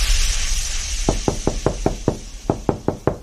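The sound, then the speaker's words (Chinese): Knocking on a door, heard as ten sharp raps in two quick bursts, first six and then four, over a faint steady hiss. “这谁呀？没事老敲门。”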